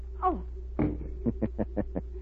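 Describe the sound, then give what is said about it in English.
In a radio drama effect, a gun is knocked out of someone's hands: a brief vocal cry, a dull thump, then a quick run of light, evenly spaced knocks, all faint over a steady low hum. “I am sorry I had to knock the gun out of your hands, mademoiselle.”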